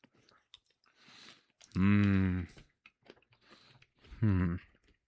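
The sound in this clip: Chewing on peanut butter cinnamon roll M&Ms gives soft, faint crunching and mouth noises, broken by two louder hummed 'mm' sounds from the eater.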